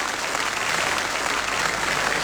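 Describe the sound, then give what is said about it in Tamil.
Audience applause at the close of a Tamil music programme, a thick, steady wash of clapping from many hands that stays level throughout. “அதனால உங்களுக்கு நீங்களே ஒரு கைத்தறல் கொடுத்துக்கங்க.”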